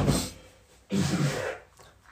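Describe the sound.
A man clears his throat to bring up phlegm in two rough, harsh bursts, the second longer than the first, with no talking over them.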